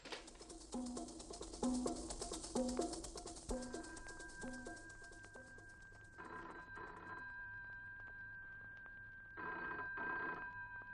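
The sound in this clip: Telephone ringing, a loud rhythmic trilling ring that repeats for several seconds, followed by a steady tone and two shorter bursts of ringing, with no voices.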